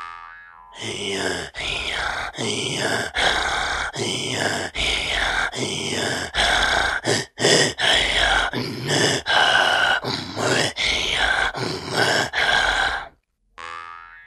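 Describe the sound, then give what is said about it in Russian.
Chukchi pitchgeynyn throat singing from far northeastern Asia is a rasping vocal technique voiced on both inhale and exhale. Many loud, throaty, buzzing pulses repeat about once per second, with a brief break near the end. “Например, на крайнем северо-востоке Азии применяется хрип питчейнын, при котором вдох и выдох производится с характерным звуком.”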